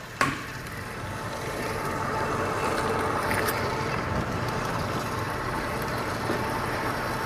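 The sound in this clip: An electric mixer beats a meat filling mixed with oyster sauce, soy sauce and a whole egg, producing a steady, low whirring motor drone that holds at an even level after a brief click at the start.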